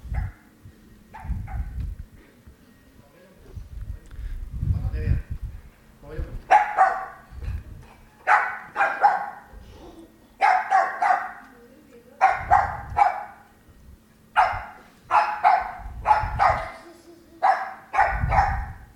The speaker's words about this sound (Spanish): Bueno, perro que era reactivo a la aspiradora.